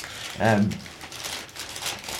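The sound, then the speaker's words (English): Paper crackling and crinkling, a steady rustle that runs through the whole clip, with a voice heard briefly near the start. “Any crackling of paper you hear”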